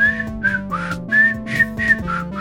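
A person whistles in imitation of a MIDI whistle, a choppy run of several clear notes that jump between fixed pitches in a stiff, stepwise melody.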